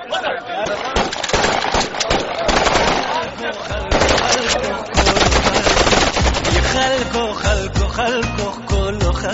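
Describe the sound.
Celebratory gunfire by young people, with rapid automatic bursts and sharp cracks packed densely and almost without pause, loud throughout, with voices mixed into the din.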